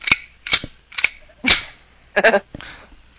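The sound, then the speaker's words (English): Sharp metallic clacks of a pistol slide being racked on an ISSC M22, a series of crisp, loud snaps arriving in an uneven rhythm with brief pauses between them. “You broke your gun? No, I did not break my gun. That sound is the slide not broken.”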